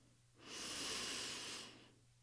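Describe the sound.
A single deep breath during a meditation exercise, a soft airy hiss that swells and then fades over about a second and a half, faint and alone with no talking.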